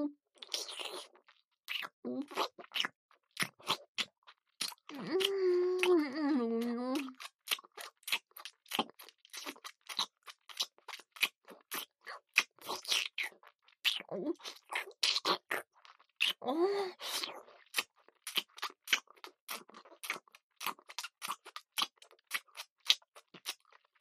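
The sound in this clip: Wet licking and mouth sounds form many rapid, sticky clicks and smacks in an irregular rhythm, with a drawn-out moaning voice rising over them twice.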